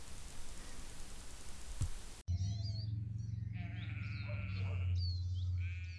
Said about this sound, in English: Lovely little Herdwick lambs here, they're titchy tiny still.